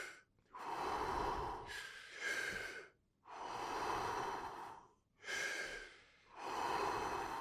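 Rapid, forceful breathing performed as a hyperventilation demonstration: several loud, harsh breaths in and out follow one another in quick succession with short pauses between, and no talk.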